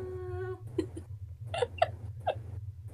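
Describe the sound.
A stray cat meows, starting with a drawn-out tonal cry and followed by a series of short, whimpering mews at uneven intervals over a low steady hum.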